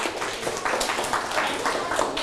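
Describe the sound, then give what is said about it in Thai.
Applause from a group of students or participants at a classroom or workshop activity, a dense patter of hand claps that runs steadily for a couple of seconds at moderate loudness with no talk over it. “โอ้โหปรบมือครับ”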